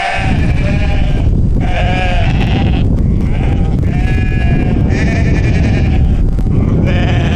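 A flock of sheep bleats on a mountain pasture nearly 4,000 m high below the Kunlun Mountains in early autumn. Many loud, overlapping bleats rise and fall continuously, with no talk.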